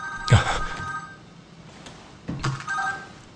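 A telephone rings as someone places a call after stepping into an elevator: two buzzy, tonal ringing bursts over a noisy, rumbling background, the second starting after a pause.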